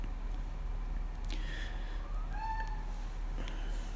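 A pet cat gives a faint, drawn-out meow that wavers slightly in pitch, partly buried under steady background hiss, with no voices.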